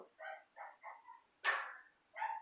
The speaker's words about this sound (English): Do you have a dog in the house? No, I don't know if it's theirs. That's a lot of dogs. It sounds like it.